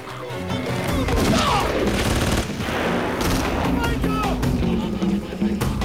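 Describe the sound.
Gunfire as men in vehicles round up and shoot rebels at a jungle camp, with automatic weapons among the guns: a dense, continuous barrage of loud shots and bursts, with voices mixed in.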